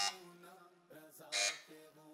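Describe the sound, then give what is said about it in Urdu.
Quiz buzzer bell being tested: a few buzzing electronic tones, the brightest burst near the end, at a moderate level and alone. “بج رہی ہے بیل”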